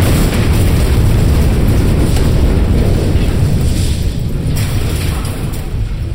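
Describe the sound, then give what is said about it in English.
A bomb exploding: a loud, sustained roaring rumble that holds steady throughout without a distinct initial blast and eases off slightly near the end. “And then, with a roar, the bomb exploded.”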